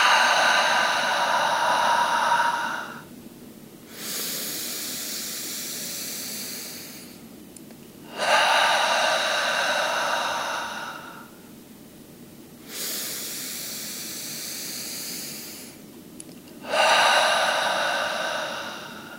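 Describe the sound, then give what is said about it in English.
Deep breaths drawn in through the nose and released through the mouth, three slow cycles of airy, hissing inhales and exhales alternating in long even swells with short pauses between, with no talking. “as we take 3 breaths together. Ready? In through the nose, out through the mouth.”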